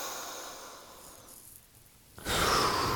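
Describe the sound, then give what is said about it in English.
Deep breathing in and out during a guided seated breathing exercise: a soft, airy breath fades into a quiet pause, then a louder, rushing breath starts abruptly near the end and holds steady. “Exhaling out. Very nice. Inhale in. Exhaling out. And inhaling in.”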